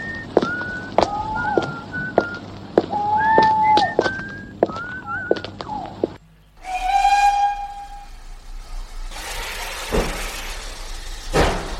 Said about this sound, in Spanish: Bueno, voy hacia el tren, que va a pitar su salida y no espera a nadie.